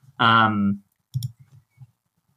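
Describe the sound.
Keyboard shortcut keys tapped on a computer keyboard, heard as a few faint, sharp clicks that follow a brief voiced sound.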